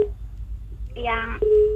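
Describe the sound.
Beeping tones on a telephone line: a short steady beep, then a buzzy crackling burst, then a longer steady beep at the same pitch, all over a low constant hum.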